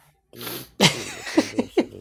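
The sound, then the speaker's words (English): Heavy breathing into a microphone during an online game: a long breathy rush, then a sharp, harsh blast, followed by a few short, thumping exhales that hit the mic loudly. “I'm getting notification that you're breathing too hard. Yeah. Mute your mic.”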